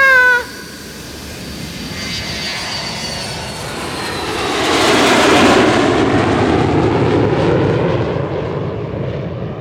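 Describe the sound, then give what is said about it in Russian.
Airplane taking off: a broad engine roar builds, swells to a loud peak through the middle and holds, then eases slightly toward the end. “Не забудьте пристегнуться ремнями. Готовы? Мы взлетаем!”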